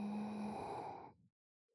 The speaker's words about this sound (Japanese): 吸って吐いて吸って